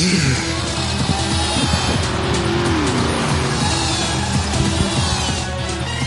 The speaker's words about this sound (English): Insert car chase scene here.